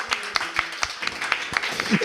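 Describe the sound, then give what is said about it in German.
An audience in Innsbruck applauds itself at the close of a stage show. Sharp, fairly sparse claps fall at a quick, steady rhythm while a voice talks over them. “oder geben Sie sich mal selber einen Applaus ja. für Innsbruck. Sie waren das beste Publikum.”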